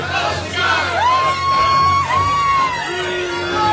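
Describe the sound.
An audience at a film premiere protests with sustained yells and whoops. The shouting rises above a murmuring crowd, with some talk mixed in.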